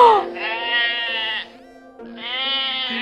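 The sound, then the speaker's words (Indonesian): A lamb gives two long, wavering bleats separated by a short pause. The calls are loud, nasal and harmonic-rich, with nothing else heard around them. “anak biri-biri yang terus bawel dan mengembik. Apalagi kalau biri-birinya ada tujuh.”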